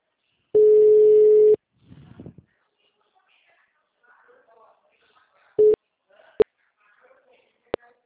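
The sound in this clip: Telephone ringback tone on an outgoing call: one loud, steady ring lasting about a second, then faint voices, a short second tone burst and a few sharp clicks.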